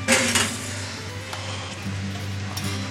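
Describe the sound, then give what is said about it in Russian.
A baking dish of potatoes being put into the oven: a couple of sharp clinks of dishware open the moment, followed by fainter knocks and rattles over a steady low hum. “Все все и ставим в нашу чудо-печку.”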